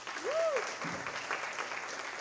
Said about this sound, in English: can you applaud if you're a freshman here? Give me a little applause in the air.